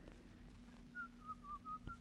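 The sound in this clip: A person whistles a folk tune, a few short, clear, high notes at a fairly steady pitch in the second half, very faint, over a low constant hum.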